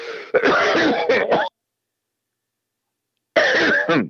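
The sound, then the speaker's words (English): Harsh coughing and throat clearing come in a loud stretch of bursts, then a pause of nearly two seconds, then another burst, with no other sound between. “cough in your elbow. Well, no, I just did it. Hold on, I got a little more.”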